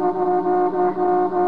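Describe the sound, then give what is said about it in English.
A big truck on the road sounds a deep, sustained horn, one loud and steady blaring tone that carries through the whole moment. “Oh, look at that big truck. What does he think he's”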